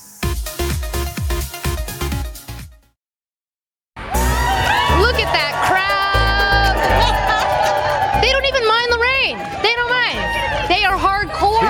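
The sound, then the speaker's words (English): Holiday crowds fill an outdoor plaza on a rainy morning with loud, continuous cheering and shouting. The noise drops to near silence for about a second before the roar resumes just as strongly. “The holiday crowds are still in full force with us out here on the plaza”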